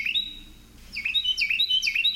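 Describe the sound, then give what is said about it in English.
Carolina Wren song played from a recording: bright, high chirped notes repeated in a quick rhythmic pattern after a brief pause, clear and fairly loud. “Here, he's queuing up the Carolina Wren song right here.”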